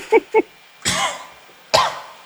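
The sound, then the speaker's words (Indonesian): A person coughing: a few harsh bursts, starting with two short voiced throat sounds and followed by two broad, raspy coughs with pauses between them. “Wah, batuk-batuk tong.”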